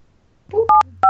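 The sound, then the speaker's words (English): Phone keypad dialing tones: two short, loud, steady beeps in quick succession, each a clean pair of pure tones, heard alone without talk. “I'll show dial pad. Here we go.”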